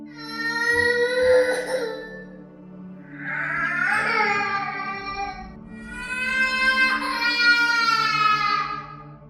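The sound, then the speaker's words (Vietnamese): A child cries outside in a horror-story sound effect: three drawn-out wailing sobs that waver up and down in pitch over a low, steady drone. “chỉ nghe thấy phía bên ngoài dường như có tiếng trẻ con khóc.”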